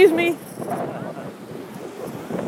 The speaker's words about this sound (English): Oh my God, this wind is bad. I'm sure it's just going to kill my mic, but it wouldn't be right to go home without getting something from Siesta Beach.